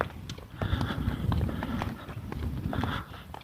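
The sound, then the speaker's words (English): Fast footsteps of a person walking briskly: a quick, steady run of hard, clip-clopping steps over a low rumble, with no voices. “I'm walking fast.”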